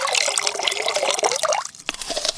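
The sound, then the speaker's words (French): Ginger infusion poured through a strainer into another container: a loud, continuous splashing and gurgling liquid stream that thins briefly near the end before picking up again. “Versez votre infusion dans un autre récipient en filtrant les morceaux de gingembre avec une passoire.”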